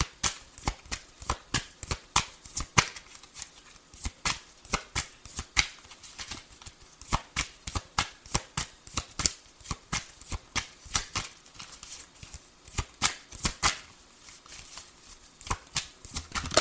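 Tarot cards being shuffled: many quick, crisp riffling and slapping bursts in an uneven, continuous rhythm, fairly faint.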